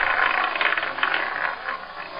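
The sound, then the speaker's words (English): A marble rolls around a spinning roulette wheel, making a continuous, even rattle that holds steady for about two seconds with no voices. “I've replaced the numbers on a roulette wheel with the names of investment gurus. I'll spin the wheel and roll the marble”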